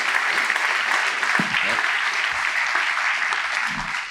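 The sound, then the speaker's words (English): A round of applause for a man invited to speak on a psalm: continuous, even clapping from a crowd throughout, with faint voices murmuring underneath. “So why don't we give John a round of applause?”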